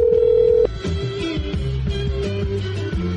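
A telephone rings with one loud, steady tone that cuts off abruptly. A run of short, stepped tonal notes follows at a slightly lower level.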